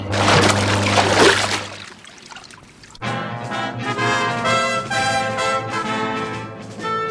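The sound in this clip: A staged effect of a car skidding on a bend and plunging into water: a rushing, splashing burst over a low hum lasts about two seconds, then dies away, and after a short lull music begins.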